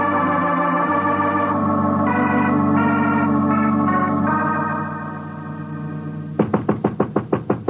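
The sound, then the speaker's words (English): Knocking on a door, a quick run of sharp raps near the end, after a long stretch of sustained tonal music. “Sorry, I knocked and when you didn't answer.”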